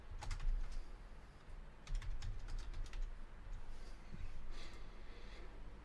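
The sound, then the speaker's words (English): Typing on a computer keyboard: bursts of quick, crisp key clicks in uneven clusters, with short pauses between runs. No voices are heard. “I have to type this, because if I say it, I'm going to laugh.”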